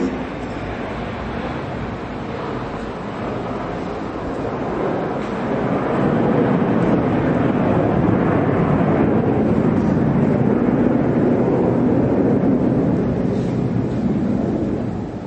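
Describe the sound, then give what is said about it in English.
An airplane passes overhead: a broad, low rumbling roar that swells partway through and stays loud and steady to the end. “airplane passing.”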